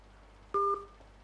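A single short dual-tone telephone beep on a radio call-in line, brief and clear over a faint steady hum.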